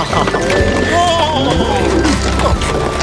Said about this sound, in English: That's our ride, the ox cart again?